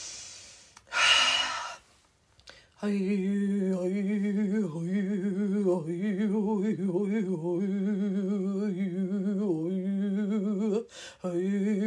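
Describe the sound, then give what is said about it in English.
One deep inhaled breath, brief and airy. After a pause, a steady, wavering tonal drone starts and continues to the end. “Take a big deep breath in.”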